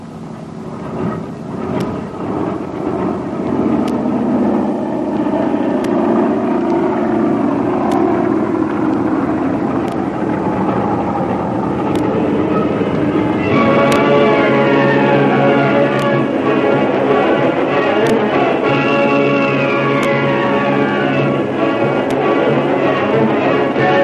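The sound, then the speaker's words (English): A big passenger airliner taking off from a long concrete runway: a steady, loud engine roar builds, then a whining tone climbs in pitch over the second half. “The long concrete runway, up into the air, the big passenger airliner takes off on the first leg of its eventful journey southwest”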